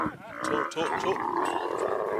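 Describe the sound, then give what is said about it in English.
Camels being loaded with gear at the end of a long, hot day groan and grunt in rough, low roars. The cranky bellowing is loud and continuous, with overlapping throaty calls. “Camels, like cars and trucks, are supposed to make noise.”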